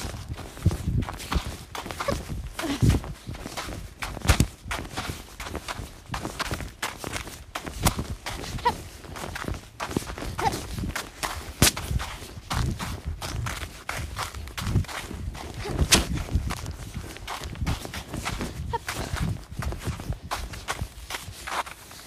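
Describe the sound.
Rapid, continuous footfalls of a person galloping on a hobby horse, many quick thumping steps in a bouncy rhythm without pause, with occasional louder stomps.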